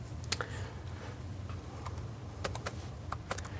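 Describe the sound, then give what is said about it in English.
Computer keyboard typing, mostly tab and enter presses while writing CSS in a code editor: scattered, faint, sharp key clicks at an uneven rhythm over a steady low hum, with no talk. “You can actually write it only by hitting tab and enter.”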